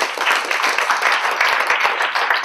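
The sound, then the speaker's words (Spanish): Dense applause from a church audience, many hands clapping in a steady, even wash that holds at a constant loudness for the whole stretch. “En un aplauso al Señor.”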